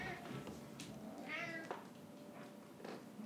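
A big male cat meows faintly in a few short, scattered calls. One clearer, drawn-out whining meow stands out in the middle against a quiet background.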